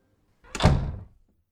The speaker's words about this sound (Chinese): 然后胖胖的女佣关上了房门。